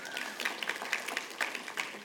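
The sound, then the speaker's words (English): Lukewarm applause from a church audience during a service, a thin patter of scattered clapping that stays faint and fairly even for a couple of seconds. “I'm not going to judge your lukewarm applause there as in any indication of how excited you are that my family's here.”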